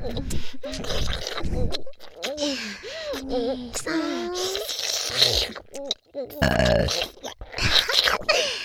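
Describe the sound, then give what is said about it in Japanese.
Several burps, low and croaky with bending pitch, come in a string of drawn-out bursts mixed with breathy vocal sounds and heavy breathing, fairly quiet overall. “こういう感じでゲップ聞かせちゃいますね。”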